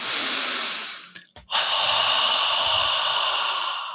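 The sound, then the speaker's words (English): A deep belly-filling breath in, followed by a forceful out-breath through the mouth: two long, loud, airy rushes split by a brief pause, the second lasting about two and a half seconds and slowly fading. “I encourage people to take a deep breath that fills the lower belly and then to do a proactive out breath through the mouth. And it sounds a little like this.”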